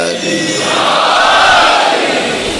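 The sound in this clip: A crowd shouts a slogan together, a loud, dense roar of many voices that holds steady for about two and a half seconds.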